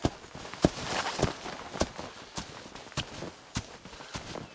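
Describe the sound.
Footsteps climbing stairs uphill, many thudding steps in a fairly steady rhythm, some landing harder than others, with no voices.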